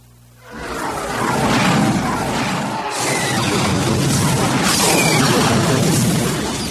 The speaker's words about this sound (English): The torpedoes did little more than blow a hole in what remained of the deflated globe